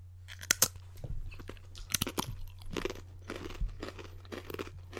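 Someone bites into and chews a thin, crunchy regular wheat cracker, making many sharp, crisp crunches and crackles in an uneven rhythm at a moderate volume. No talking is heard.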